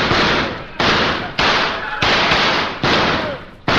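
Gunfire rings out in a radio drama as about six loud, roughly evenly spaced shots, each a sharp burst trailing off in a long, noisy decay.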